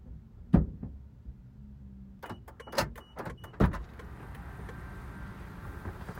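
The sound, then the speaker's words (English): A car is filled up with gasoline: several sharp clunks and knocks of the nozzle and fuel cap, then a steady, low pump hum carrying on to the end. “I'm just going to stay quiet so I can listen to the sounds of you filling up the vehicle.”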